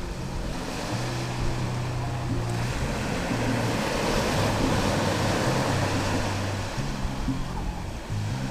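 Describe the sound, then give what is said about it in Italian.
Sea waves at Santa Margherita on the Gulf of Policastro make a steady, unbroken rushing wash that holds level throughout, with a low tonal hum running beneath. “Questa 187esima puntata di Coxo Spaziale si fregia anche del rumore del mare di Santa Margherita nel golfo di Policastro.”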